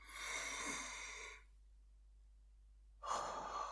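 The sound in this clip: Slow, deep breathing during a guided meditation: one long airy breath of about a second and a half, a stretch of silence, then a second breath starting near the end. No talk.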